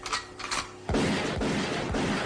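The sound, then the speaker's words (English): Gunshots ring out as loud, booming bangs, three sharp reports about half a second apart after a brief quieter stretch. “Sweet mother of God, he's got a gun! We have to fight back.”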